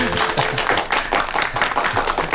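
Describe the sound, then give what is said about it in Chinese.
A group of colleagues applauds together, a steady wash of hand claps with a loosely regular pulse, lively and fairly loud throughout. “大家鼓掌。”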